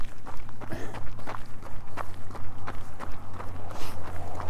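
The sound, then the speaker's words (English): Running footsteps near the finish of a fourteen-mile run in freezing winter conditions: many quick, evenly spaced footfalls keep a steady running rhythm throughout, with no talk. “Yeah, we probably got a 200 meter run to the finish now.”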